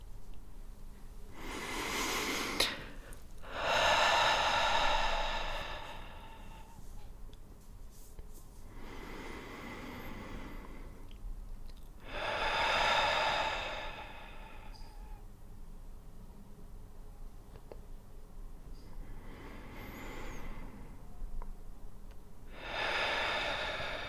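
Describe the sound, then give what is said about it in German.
Deep, slow breathing in and out, heard as a series of long, airy, whooshing breaths with gaps of quiet between them. There is no talk. “Vielleicht kann es dir helfen, 2 bis 3 Mal tief einzuatmen, um alle Anspannung loszulassen.”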